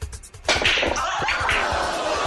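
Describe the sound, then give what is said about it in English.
A cue ball strikes during a pool game in a played video clip, a sharp crack followed by a dense, noisy wash of sound that keeps going to the end. “This right here is a clip of three guys playing pool. You're gonna miss. He's taking a shot.”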